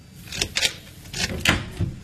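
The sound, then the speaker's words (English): A door being opened, a few quiet clunks and clicks spaced irregularly across the moment, with no voices. “Bruno, please open the door.”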